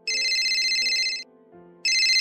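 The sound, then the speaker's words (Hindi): A mobile phone ringtone trills in two bright electronic bursts, the first lasting about a second, then a short gap before the second begins, over faint low background tones. “कुछ देर बाद inspector का phone बजा,”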